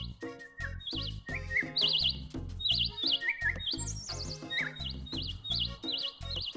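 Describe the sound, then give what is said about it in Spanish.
A Cuban mockingbird sings in bright, high chirps and quick trilled phrases, repeated many times over music with steady low notes. “Por ahí llega volando nuestro amigo, el sinsonte dorado, el sinsonte cantor, mi sinsonte cubano.”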